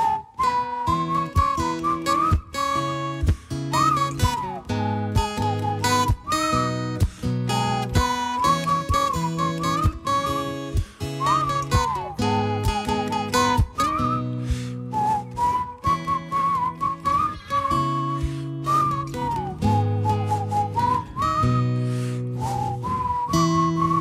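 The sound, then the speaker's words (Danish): A group whistles a bright melody along with a band playing a new song live on radio. The whistled tune sits steadily above the full, loud band for the whole stretch, with no talking. “Fløjt lige sammen med os nu.”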